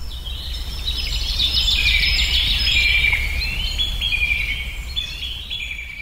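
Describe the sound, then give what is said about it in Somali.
Various birds sing in a lush, prosperous landscape: a continuous mix of high chirps, tweets and trills that overlap throughout, over a steady low rumble. “iyadoona shimbiro kala nooc ah maqalkooda kugu soo dhacaya kuwaas oo ku tusaya barwaaqada halkan ka jirta”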